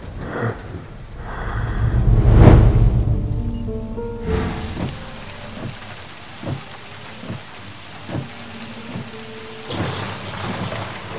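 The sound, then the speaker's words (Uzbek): Heavy rain pours down steadily with a dense, hissing patter, while a deep rumble of thunder swells and fades early on before the downpour continues on its own. “yomg'ir zo'r yog'yapti-ya.”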